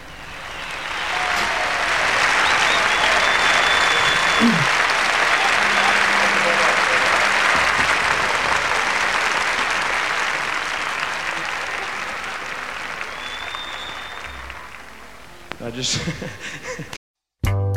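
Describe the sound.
Sustained audience applause at a live concert recording, a dense wash of clapping that swells early, holds steady for a long stretch, then gradually fades before cutting off.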